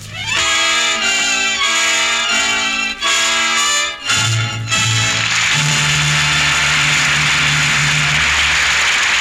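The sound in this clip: A car is driving, with a loud, continuous engine drone and a steady low rumble running throughout without a break.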